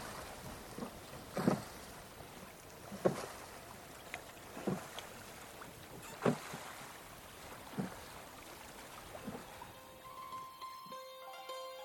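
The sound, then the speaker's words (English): Oars rowing a boat dip and pull through water in a steady series of splashy strokes, about one every second and a half, some louder than others, over a soft wash of moving water and light wind. “And the only sound that can be heard here is me rowing.”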